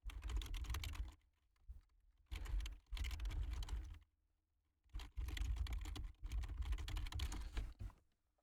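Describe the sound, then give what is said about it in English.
Typing on a computer keyboard: quiet bursts of rapid key clicks broken by short pauses, with no voices. “So let me just type something real quick.”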